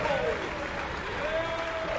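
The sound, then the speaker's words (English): Audience applause for euphonium players and the low brass section holding their horns high while performing with an orchestra. The clapping is dense and steady throughout. “hold their horns up high. Makes up for having to be the last people to take the stage during the call out. They get a big applause here.”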